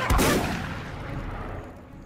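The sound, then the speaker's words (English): A single gunshot from a film scene in which a dog is shot: one sharp, loud crack followed by a long rumbling decay that fades over about two seconds. “Let's cut to the exact moment where Old Yeller gets shot in the head.”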